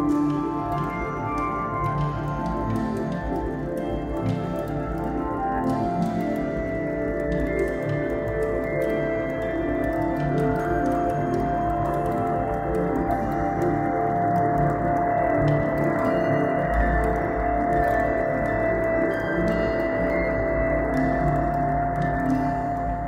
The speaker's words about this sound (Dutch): En alles wat bovenaan in het beeld zit, heeft een hoge toon. Hoe lager in het beeld het komt, krijg je een lagere toon. En dat allemaal samen, als je over dat landschap heen loopt, hoor je dus een heel variërend geluid.